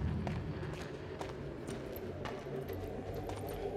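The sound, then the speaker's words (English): Running footsteps on deepslate and soul sand in the Minecraft video game, many quick, soft steps beneath a steady droning, crackling ambient bed. “He was walking, now he's running on deep plate. Soul sand.”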